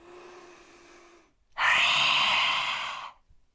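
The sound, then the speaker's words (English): In a lion breath exercise, a person inhales softly through the nose, then forcefully exhales through the mouth with the tongue stretched out. The exhale is a loud, harsh, airy rush lasting about a second and a half, with no speech. “You breathe in through the nose and then you breathe out through the mouth with the tongue extended as far out as possible. So there's a real roar and you're letting it go.”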